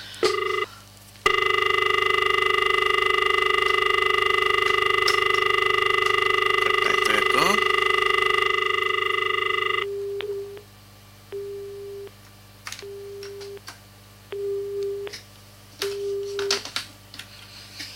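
Incoming telephone call signal: a long, steady electronic tone holds for several seconds and then cuts off. A few short, evenly spaced beeps follow at a moderate level.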